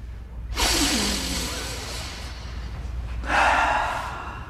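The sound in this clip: Big, deep breaths fill the pause: a long, rushing, breathy pull lasting nearly two seconds, then after a short gap a second, shorter airy breath, both loud against a quiet background.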